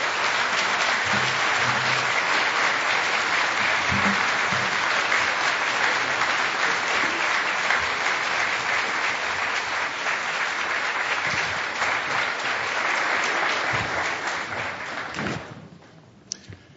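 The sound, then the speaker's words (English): An audience applauds speaker Tom Brokaw at a Commonwealth Club event with loud, dense, steady clapping that holds for a long stretch, then fades out near the end, leaving a few faint stray sounds. “Another hand for our wonderful speaker today, Mr. Tom Brokaw.”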